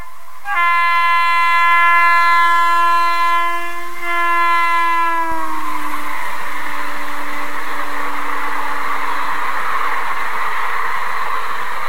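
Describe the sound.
A train horn blares a loud, steady, harmonic tone for about five seconds, then cuts away into the continuous rushing rumble of the moving train.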